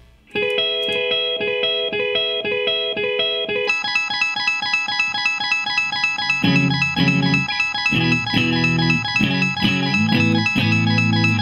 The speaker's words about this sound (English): Again, I have to have a loop pedal that does double time.